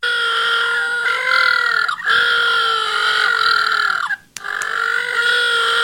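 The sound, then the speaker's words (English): Little blue penguins call in a loud, continuous braying of buzzy, harmonic tones. The calling is broken by two brief pauses and resumes after each. “Now that's the sound of little blue penguins.”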